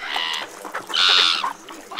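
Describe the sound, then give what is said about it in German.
Gulls screech loudly as they fly in, giving a few harsh, high, nasal calls in quick succession, with one longer drawn-out cry in the middle. “Schaut mal, jetzt kommen die Möwen angeflogen. Die kreischen ganz schön laut.”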